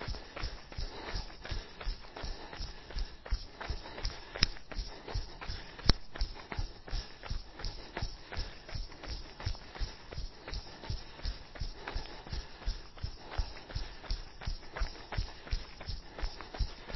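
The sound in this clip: Jogging footsteps during a fartlek run: a quick, steady, even rhythm of soft foot strikes that goes on without a break, fairly faint throughout.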